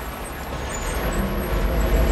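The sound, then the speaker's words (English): A large truck drives along the front of a disused warehouse, giving a low, steady engine rumble with some higher hiss above it, growing slightly louder toward the end. “Outside, a large truck drives along the front of the disused warehouse and comes to a stop.”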